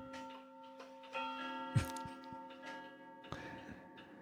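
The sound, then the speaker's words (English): Faint bell chime used as a sound effect, with sustained ringing tones held for a couple of seconds among soft ticking sounds. “the bells were intended for effect.”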